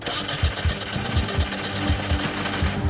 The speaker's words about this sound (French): Le moteur de 1400 cm3 va-t-il démarrer et donner vie à la GT ou pas? Fais voir. Prêt, démarre.